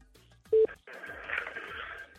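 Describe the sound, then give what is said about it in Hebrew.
A brief, loud DTMF dialing tone as a phone number is keyed in during a live radio prize draw, followed by a quieter, steady noise on the line. “עכשיו זורק את המספר ומחייג. עושה את זה מהר.”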